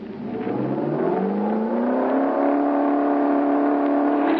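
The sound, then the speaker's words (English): A car engine revs at full throttle during a road test. Its pitch climbs steeply in the first second, then holds as a loud, steady, high-revving drone with no voices over it. “Throttle her full.”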